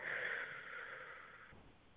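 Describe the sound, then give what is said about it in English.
A single deep breath drawn in from the stomach gives a soft, airy hiss that lasts about a second and a half and then fades to near silence. “So you're going to take a deep breath, please, three times. Inhale from your stomach, deep all the way out. We're going to start now.”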